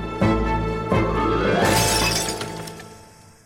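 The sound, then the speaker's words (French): Stones are thrown at a polling station's glass window until it smashes. A couple of heavy knocks lead to a loud crash of shattering glass, followed by bright tinkling shards that slowly fade. “Madeleine Pelletier et Hubertine Auclair, pendant les élections de 1908, défoncent la vitre d'un bureau de vote à coups de pierre et renversent l'urne”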